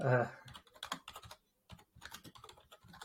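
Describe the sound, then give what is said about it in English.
Typing on a computer keyboard: many quick, light keystrokes in uneven bursts, with a brief silent gap partway through before the tapping resumes. “There we go. We have to type it on now.”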